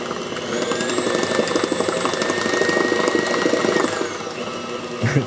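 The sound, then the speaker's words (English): Electric mixer running at high speed, beating cheesecake batter of cream cheese and eggs: a steady, loud, whining motor drone with a rattling buzz that drops slightly in pitch near the end, followed by a brief bump. “My mixer's a little too small to be doing that high.”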